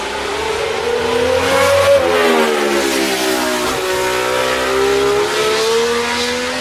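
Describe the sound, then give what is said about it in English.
A late-1960s to early-1970s Ferrari 312BB racing car engine revs hard and loud on its own. Its rasping pitch climbs, drops sharply, then climbs again several times, like quick gear changes. “That was a late 60s, early 70s Ferrari, the 312BB.”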